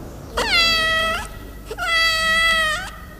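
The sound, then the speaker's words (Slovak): A cat that lives in an apartment building's hallway and cellar meows twice, alone: two long, clear, tonal meows with a short gap between them, the second one longer. “Ahoj, mačka.”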